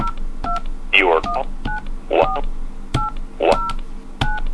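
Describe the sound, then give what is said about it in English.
Touch-tone keypad tones entering a caller code on a phone conference line: a few short, two-pitched beeps spaced irregularly, with brief clicks and other short sounds between them. “Punch in the other caller's code now.”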